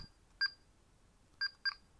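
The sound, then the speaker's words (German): Three short electronic telephone dialing tones as a call is placed, each a brief, bright beep. The first stands alone, and the last two follow close together. All three are faint over a quiet background. “Herr Bolognese ruft bei Familie Nudel an.”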